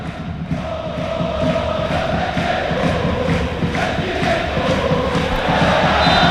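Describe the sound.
Football fans cheering in a Spanish stadium, a loud continuous crowd roar with a regular rhythmic pulse of chant beats or claps running through it and building slightly toward the end.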